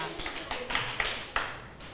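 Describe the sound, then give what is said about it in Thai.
A few scattered hand claps from students in a class applauding themselves and their classmates after a correct answer; faint, sharp claps with uneven gaps between them. “ปรบมือให้กับตัวเองแล้วก็ตบมือให้กับเพื่อนด้วยค่ะ”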